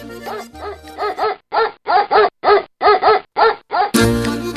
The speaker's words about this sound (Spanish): los ladrones descubiertos por el perro guardián salen a escape.